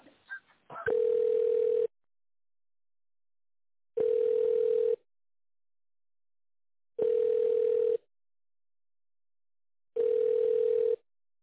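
Telephone ringback tone while an office call at an insurance company is transferred: four long, steady mid-pitched beeps of about a second each, evenly spaced roughly three seconds apart, after a brief handling noise at the start, with no talk.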